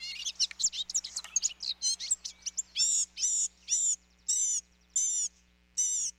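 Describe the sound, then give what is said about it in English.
A blue-gray gnatcatcher sings its long, squeaky song, which can mimic other birds: a rapid jumble of thin, high chirps gives way to about six evenly spaced, drawn-out high notes over a faint steady low hum. “The song's variety likely helps attract a mate. Hidden in the dense leaves, the blue-gray gnatcatcher might be easy to overlook,”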